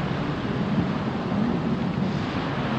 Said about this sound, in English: The branches are louder without the leaves. Maybe the wind is stronger now.